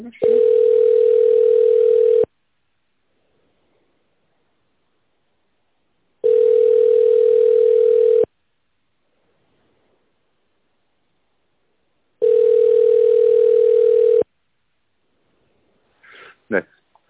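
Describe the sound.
A telephone line tone heard while a call is transferred: three long, steady, single-pitched beeps of about two seconds each, separated by roughly four-second silences, followed by a brief voice at the very end.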